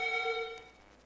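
A telephone rings with an incoming call on a radio station's call-in line: one steady, bright ringing tone that stops about halfway through and then fades away.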